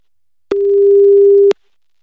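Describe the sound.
Telephone ringing tone as an outgoing call is placed: a single steady, loud mid-pitched beep lasting about one second, heard alone with no talk.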